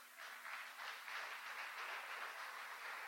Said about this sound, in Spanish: Dale un aplauso a Él.